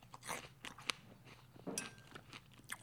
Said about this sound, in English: Apples are just so crisp. Sliced up, biting into one.